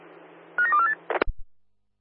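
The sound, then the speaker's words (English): Telephone dialing tones beep in a quick run of several short keypad notes, followed by a few sharp clicks as the line connects, then quiet. “Roger, dialing now.”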